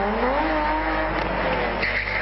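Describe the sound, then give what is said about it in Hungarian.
A BMW rally car spins during a rally in Karcag, its tires squealing against a loud, roaring engine. The engine's pitch climbs early on, and the harsh whine and squeal run on without a break. “A BMW volt a karcagi rally utolsó versenyzője. Már az első akadályt elhibázta, ezért trükközni kezdett.”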